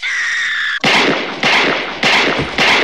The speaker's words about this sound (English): Oh, he shoots Sherry.